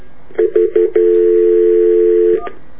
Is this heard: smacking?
no